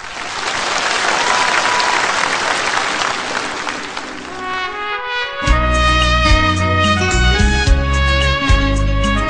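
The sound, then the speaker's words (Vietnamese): Audience applause at a Vietnamese Buddhist ceremony: dense, sustained clapping for about five seconds, then a song begins with steady melodic music. “xin mời tất cả quý vị chúng ta hãy dành một tràng pháo tay thật lớn, thật nồng nhiệt để chúng ta cùng chào đón sự hiện diện của Đấng Thế Tôn”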